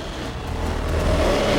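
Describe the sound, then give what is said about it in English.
A small truck approaching near a jungle, its engine a low, rough drone that swells steadily louder over a second and a half. “gets to his feet as a small truck approaches”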